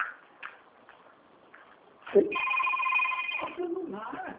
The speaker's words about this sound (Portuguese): É o celular, velho.